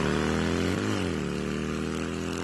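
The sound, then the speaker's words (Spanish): The engine of a brand-new, zero-kilometre motorcycle runs in a steady, loud, low harmonic drone, with a brief small wobble in pitch early on and no other sounds. “vení, vení y arrancá en una 0 kilómetro de Casa Orlando Araujo.”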